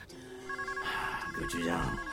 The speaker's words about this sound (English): The besuited man answers his phone.